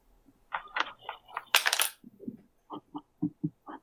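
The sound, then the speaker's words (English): Dice tumble across a table during a tabletop game: a sharp rattling clatter, followed by a few short, softer knocks as they settle. “Roll a d6.”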